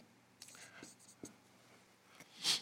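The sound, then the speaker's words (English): Fast, scribbly handwriting scratches out a few quick, faint strokes in short bursts, with quiet speech around them. “If you write it real fast and scribbly, you can't tell that I missed, I didn't spell it right, right?”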